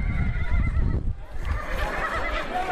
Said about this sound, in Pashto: په کابل ښار کې پلیارتل د افغانستان یو له هغو تفریحي سیمو څخه شمیرل کیږي چې ځوانان پکې د اسونو سپرلۍ کوي.